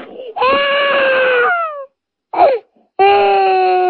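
Exaggerated crying and wailing as a sound effect: a loud, drawn-out wail that slides downward, a short choked sob, then another long wail that carries on to the end.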